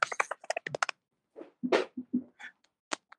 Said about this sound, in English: Sounds like you're unwrapping like a Snickers or something.